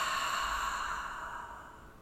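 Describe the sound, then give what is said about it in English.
A long, soft exhale during a breathing-relaxation exercise, an airy, breathy release that starts quiet and fades slowly away, alone without talk. “Let's just let the air out here.”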